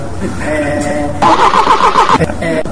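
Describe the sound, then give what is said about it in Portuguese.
A car engine starting: a low rumble, then a louder roar bursting in about halfway that holds steady with a brief dip before running on. “É o motor de carro.”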